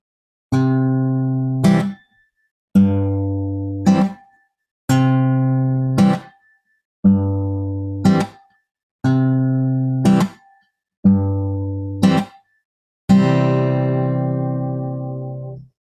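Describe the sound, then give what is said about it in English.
Two-beat boom-chuck rhythm strummed on a guitar: a full, ringing bass-and-chord stroke followed by a short, sharp muted chuck, repeated six times at an even walking pace, ending on a single chord left to ring out. “Let me demonstrate this with my guitar. I'm going to play a 2 beat, otherwise known as a boom chuck. Sounds like this.”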